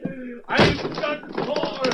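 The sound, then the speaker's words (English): A locked door between two streets being forced in, heard as a single heavy thud amid people talking. “There's a door between the two streets. Yeah, but it's locked from the other side. Give me a hand. Right. We'll break it in.”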